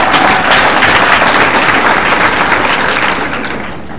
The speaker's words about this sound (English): I'm undeserving of your applause, but I'll take it as a applause for the program